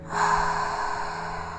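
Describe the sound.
A deep breath drawn in during a relaxation exercise, one airy, breathy rush that swells quickly and holds steady to the end, heard alone without talk.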